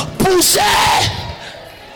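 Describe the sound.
A loud joyful shout from an audience at a French-language church service: a sudden burst of yelling voices that rises sharply, holds for about a second, then fades into a softer murmur.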